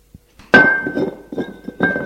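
A glass beer bottle is set down on a floor with a sharp clinking thunk, followed by a faint sustained ringing tone and a few lighter knocks and rattles.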